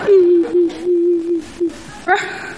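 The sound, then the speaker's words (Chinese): A young woman crying after losing a car race, with a sustained whimpering, wavering wail that rises and falls in several sobbing phrases, loud and close, ending in a sharp breathy sob. “你哭什么呀？别哭，憋回去。”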